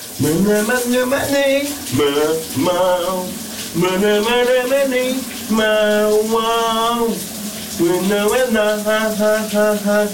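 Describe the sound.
A shower runs beneath a man singing loudly in the shower, his voice carrying several sustained, wavering phrases with brief pauses that dominate over the water noise.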